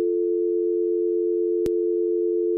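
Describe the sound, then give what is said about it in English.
A telephone dial tone made by combining two tone generators: a steady, unbroken low hum held throughout, interrupted only by one brief click near the middle. “Now, if we do it together, and that's your dial tone.”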